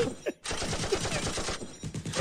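Rapid automatic gunfire rattles in a dense, sustained burst lasting about two seconds, with a brief gap near the start and looser pulses trailing off at the end.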